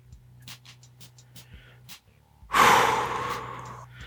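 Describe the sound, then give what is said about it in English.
A deep exhale during a counted box-breathing exercise outdoors in a backyard: a few faint short puffs over a low steady hum, then one long, loud, airy breath that swells suddenly and slowly tapers off. “Inhale 2 and hold 2. Exhale.”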